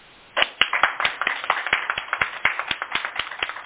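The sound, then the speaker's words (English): Meeting participants applaud after a short silence, with many brisk, crisp hand claps in a quick, fairly even rhythm at moderate volume, continuing steadily to the end. “So if there are no other comments, and there are apparently no other comments, we can just maybe applaud to Leslie.”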